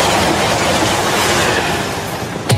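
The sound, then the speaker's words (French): A TGV high-speed train rushes along with a loud, steady roaring rumble and a fast wheel clatter on the track, keeping an even level for over two seconds before easing slightly, then ending with a brief sharp click. “Le TGV, il va enfin s'arrêter.”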